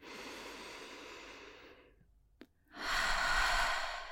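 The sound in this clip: Slow, deep breathing during guided breathing practice: one long, airy breath fades out, a brief pause follows, then another full breath swells in, steady and fairly loud, with no talking.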